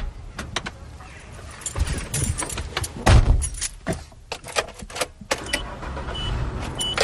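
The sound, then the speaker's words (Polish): Someone getting into a car: keys jangle, a power window whirs and the door thumps, giving a busy run of clicks, knocks and rattles over a steady low rumble. “Proponuję usiąść na samochód i wyjechać do wyspy Krzysztofskiej.”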